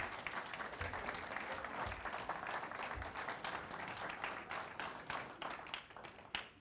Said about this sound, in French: Et avant de commencer ma prédication, j'aimerais que nous acclamons toutes les femmes et les mamans.